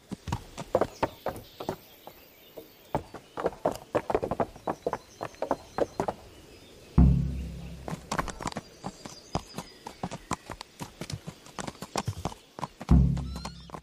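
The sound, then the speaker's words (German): Hooves clip-clop in a quick, uneven rhythm as a horse is ridden over a bridge, with many crisp strikes and two heavier thuds along the way. “dass da irgendeine Szene ist, wo irgendjemand nicht spricht und mit einem Pferd über die über eine Brücke reitet”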